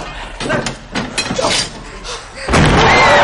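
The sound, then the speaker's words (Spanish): Heavy bangs and thuds as a door is slammed shut and barricaded and a bloodied man hits a window in a zombie horror comedy. Several sharp impacts come in quick succession, then a loud, sustained crash of noise near the end. “Cierran una puerta atrancándola cuando un hombre manchado de sangre impacta contra la ventana.”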